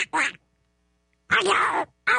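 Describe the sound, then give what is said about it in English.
A voice imitates a cartoon duck quacking in three raspy, nasal bursts with silence between them. The middle burst is the longest, and the last is cut off at the end. “See, I can do Donald Duck too.”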